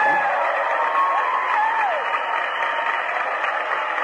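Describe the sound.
Applause from an audience for a man who has pledged to refuse a loan, a steady, muffled wash of clapping with faint crowd cheering running evenly throughout.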